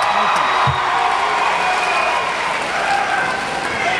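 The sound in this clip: A rowdy crowd at a Democratic party event cheers and applauds: a dense, continuous wash of clapping and shouting, loud and sustained from start to end.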